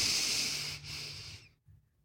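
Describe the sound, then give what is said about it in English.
A deep breath during a guided breathing exercise: one long, airy hiss that holds steady for over a second, then fades out, with a faint short breath following. “and exhale. Inhale.”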